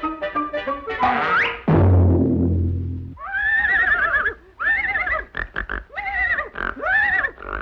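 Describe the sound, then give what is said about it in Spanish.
A horse neighs and whinnies as someone approaches it to ride. A rising squeal and a low snorting grunt are followed by a run of several loud, rippling whinnies with short gaps between them. “Acérquese siempre al caballo con un desplante de confianza.”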